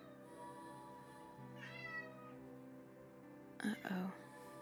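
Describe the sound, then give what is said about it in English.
Two cats meowing at each other in a quiet exchange, with a few soft, drawn-out meows spaced apart over a low background. “two cats were just having a conversation.”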